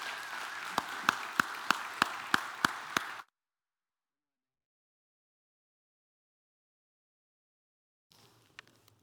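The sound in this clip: Church audience applauding to welcome a speaker: dense clapping with a few sharp, evenly spaced claps standing out, then an abrupt cut to silence after about three seconds.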